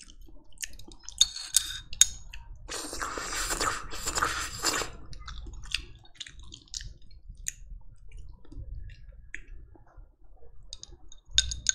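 Someone eats plain noodles quickly, with soft wet clicks and smacks scattered throughout and one longer noisy sucking burst partway through. No talking is heard.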